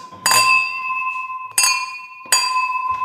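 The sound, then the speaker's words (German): Three bright clinks of sparkling-wine glasses meeting in a toast, evenly spaced, each leaving a clear ringing tone that lingers until the next touch, with no talking. “es gab Sekt und wir stoßen jetzt nochmal an”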